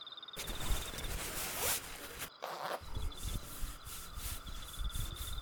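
A pants zipper is pulled down in two rasping passes, with fabric rubbing between them. The sounds are close and fairly quiet, with a short pause in the middle.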